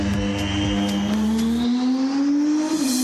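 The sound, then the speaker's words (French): Engine of the Alpine 424 hypercar on a track during a development session: a loud, sustained, tonal roar that climbs steadily in pitch, with a low rumble underneath that drops away partway through. “puisqu'Alpine nous fait l'honneur de nous inviter à une session de développement de son hypercar, la 424”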